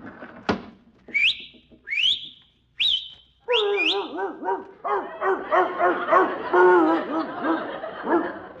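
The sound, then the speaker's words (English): A dog barks and yelps in a long, busy run after three short rising whistles meant to call it, the dog's loud, harmonic cries continuing for several seconds without pause. “I'll just whistle out the window and tell my dog to bring in the morning paper.”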